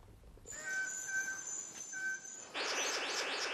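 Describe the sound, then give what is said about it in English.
Calls of Princess Stephanie's bird of paradise: a steady, clear whistled tone held for about two seconds with a brief break, then a burst of harsh, rapid high chirps. “And here is Princess Stephanie's bird of paradise with a great long, glossy black plume.”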